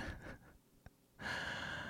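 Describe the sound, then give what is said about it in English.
A person clearing nose and throat: a snorting sniff and breathy rasps, a short quiet gap broken by one small click, then a longer, louder harsh rush of air to the end. “Yeah, so clearing my nose and my throat.”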